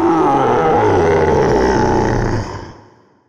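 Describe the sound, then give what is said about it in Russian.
A huge black-brown bear roars in pain, a deep, loud, growling roar that holds steady for about two and a half seconds and then fades away. “Зарычал от боли чернобурый медведь.”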